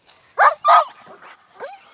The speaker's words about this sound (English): I have a trained police dog.